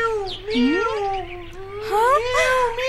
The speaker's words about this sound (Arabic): ولا تبكي، أرجوك أرجوك يا قطة